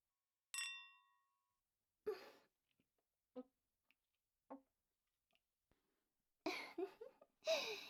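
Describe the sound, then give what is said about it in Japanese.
A glass clink during a toast: one bright, ringing chime that decays smoothly. Sparse soft clicks follow, then louder scuffling bursts near the end. “はい、あなたのグラス。じゃあ、乾杯。”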